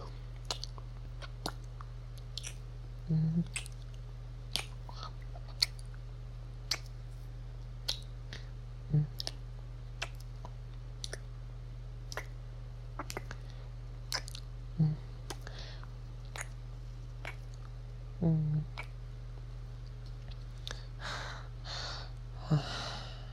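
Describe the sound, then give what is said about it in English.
Kissing sounds, with many short, sharp lip smacks scattered at irregular intervals, faint over a steady low hum, with breathy rustling toward the end. “I suppose we can call that little kiss war a draw, huh?”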